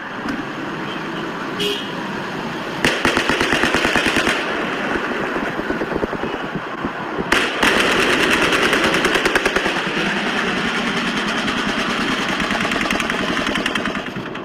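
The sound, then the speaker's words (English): Sustained fully automatic gunfire from at least two shooters firing down from halfway up a hotel tower: long, loud, rapid bursts that run almost without pause. “It sounds like it's confirmed there are at least two shooters with fully automatic weapons.”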